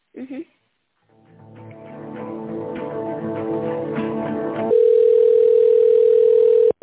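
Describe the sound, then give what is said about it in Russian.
Telephone line tones while a call is being connected, with a buzzy tinny harmonic stretch that builds gradually, then a loud, steady single-pitched tone held for about two seconds before it cuts off. “Сейчас соединюсь со Светланой Васильевной.”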